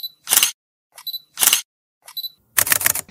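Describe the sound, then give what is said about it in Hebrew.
A camera shutter fires while someone photographs a freshly baked cake for Instagram, with a few sharp, bright mechanical clacks separated by smaller clicks, and the last burst is longer and louder. “חברים, העוגה מוכנה, יצאה עוגה מהממת, שנייה, תמונה יפה לאינסטגרם.”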